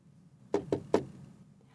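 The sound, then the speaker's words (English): Three quick knocks rap on a wooden dining room door, crisp and moderately loud, then quiet. “I don't even have time to swallow a mouthful of tea when someone knocks on the dining room door.”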